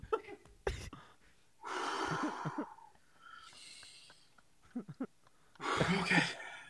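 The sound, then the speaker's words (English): Deep breaths from a nervous, flustered young woman: three long, loud, breathy rushes of air, each lasting about a second, with quiet gaps between them. “Take some deep breaths.”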